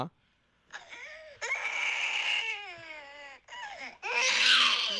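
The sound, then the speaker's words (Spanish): A baby girl cries, refusing to sleep even when offered the breast: loud, wailing sobs in several long bursts with a wavering, strained pitch, ending in a harsher, louder cry. “Esa es una niña que ni con la chiche quiere dormir. O sea, no es ni siquiera, no es como que alguien más la está cuidando, ¿no? Ella simplemente no quiere dormirse.”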